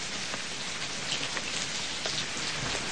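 Steady rain pours down in a dense, continuous hiss with a constant patter of drops, evenly loud throughout with no voices.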